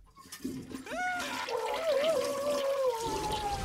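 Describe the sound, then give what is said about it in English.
Made-up toilet flush sound effect for a video game: a swelling watery rush carries a wavering, gurgling whistle-like tone that swirls and then slowly drifts downward, moderately loud, with no talk. “what would it sound like if Blind Bob got flushed down a toilet? Oh, you know what? I know exactly what it sound like. It would sound like this.”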